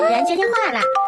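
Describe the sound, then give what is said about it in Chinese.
A phone ringtone made of a high, sing-song voice calls out briefly with bouncing pitch, loud and lively with a bright, playful tone. “主人接电话了。 是谁在打电话？”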